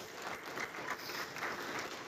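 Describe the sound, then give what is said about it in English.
Audience applause for an artist at a project gathering: a steady, fairly soft wash of clapping that lasts about two seconds with no talk over it. “let's give her a clap.”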